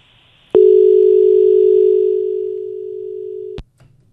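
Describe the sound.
A telephone tone sounds after a call is cut off: one steady, mid-pitched tone begins with a click, holds for about three seconds while fading slightly, then stops abruptly.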